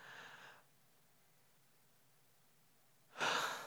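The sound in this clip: A voice imitates the gasping breath of a crucified person pushing up to catch air. A soft breathy exhale is followed by near-silence, then one loud, sharp, rasping gasp.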